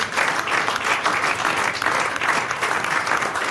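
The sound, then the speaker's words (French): A standing ovation fills the space with dense, sustained applause from a crowd, many hands clapping in an even, loud roar that pulses slightly and carries on without speech. “Et c'est une standing ovation. Oui, standing ovation.”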